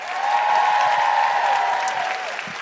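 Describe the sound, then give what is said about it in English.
Audience applause at a live show in Canberra, a full, sustained wash of clapping that stays steady and fairly loud from start to finish. “And a big round of applause for Michelle Ryan. And Nikki Britton.”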